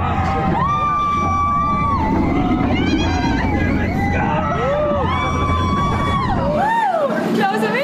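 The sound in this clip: Riders scream and yell on a steep amusement-park roller coaster, their high cries rising and falling over a constant rumbling roar that drops away near the end.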